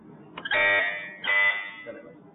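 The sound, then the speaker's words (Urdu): A quiz buzzer bell tested before a question round on Quran knowledge: two loud, harsh electronic buzzes, the first longer than the second, with faint murmuring between and after them. “آپ کی بیل check کرنے بج رہی ہے”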